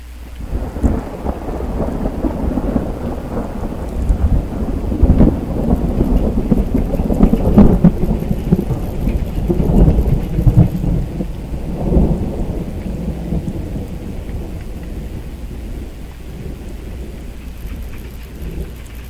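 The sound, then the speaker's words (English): Thunder from a lightning strike rolls through a rainstorm as a long, deep rumble that swells toward the middle and slowly fades. A steady hiss of rain continues underneath. “Yep, that's the sound of lightning.”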